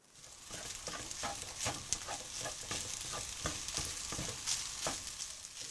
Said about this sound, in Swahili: Kaanga kila kitu pamoja kwa muda mrefu kidogo na uongeze viambato vingine vilivyosalia.